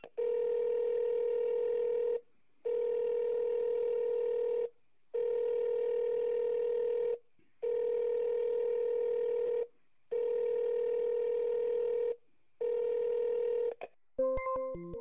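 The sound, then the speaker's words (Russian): Telephone line tones from a test call: six long, steady, evenly spaced tone bursts separated by short gaps, the last one shorter, followed by a quick run of short keypad dialing beeps at the end. “Так, и попробуем второй сделать контрольный звонок.”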